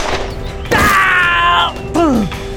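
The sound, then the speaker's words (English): A gunshot sound effect in a western audiobook shootout: a sharp, loud crack that rings on as a sustained tone, followed by a second, shorter tone that falls in pitch. “His bullet caught Cade in the side, causing him to collapse on the ground.”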